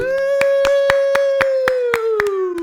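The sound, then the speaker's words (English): Clapping welcomes two guests onto a stage at a horse-themed show: a steady, rhythmic run of claps beneath a long, sustained whooping voice that sinks slightly in pitch near the end. “Please put your hands and hooves together for Jess Zanuski and April Renzella.”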